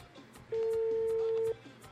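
A telephone ringback tone plays on an outgoing call: a single steady, mid-pitched tone of about one second, quiet over a faint murmuring background.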